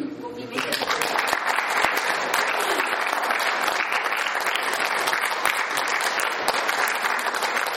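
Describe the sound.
Applause from a crowd, dense and steady, beginning after a brief quiet moment at the start and carrying on evenly to the end.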